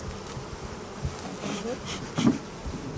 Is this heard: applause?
no